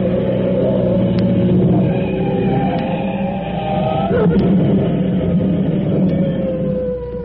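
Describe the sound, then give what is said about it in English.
A car engine roars hard during a chase as the car swings wide around a corner and heads down an alley. The rumble stays loud and steady throughout, with whining tones over it and no talk. “Step on it. He's right behind. Step on it, Polecat.”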